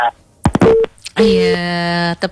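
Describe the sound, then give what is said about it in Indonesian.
A phone-in call line cutting off, with a few short clicks and bursts of line noise followed by a steady electronic tone that holds for about a second before ending abruptly. “Terputus ya.”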